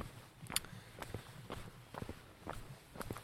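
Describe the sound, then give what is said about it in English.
Footsteps of someone walking along a coastal path, faint and quiet, with a steady run of soft footfalls at roughly half-second intervals and no voices. “I'm just going to walk past it, keep walking and walk past it.”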